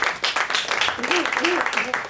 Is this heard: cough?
no